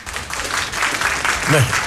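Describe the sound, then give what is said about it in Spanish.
Applause from a studio audience on a Spanish-language talk show during football chat, a steady, fairly loud patter of clapping with a brief voice rising near the end. “Aplausos. Muy bien.”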